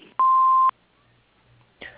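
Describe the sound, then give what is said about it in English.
Answering machine beep signalling the start of a message: one clean, mid-pitched electronic tone lasting about half a second, then near silence. “If you would like to leave a message, please do so after the beep.”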